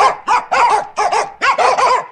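Dogs barking: a quick run of high, yapping barks and yips in tight bursts, loud and close together, with no talk over them.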